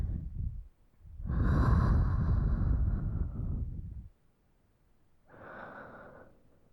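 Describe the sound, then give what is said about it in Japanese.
Deep human breathing, with long, loud, airy breaths drawn in and pushed out, separated by short quiet pauses. The longest breath lasts about three seconds. “吸って吐け。”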